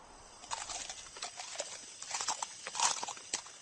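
Horses arrive along a road, their hooves clip-clopping in a steady, irregular stream of many soft strikes. The whole passage is fairly faint.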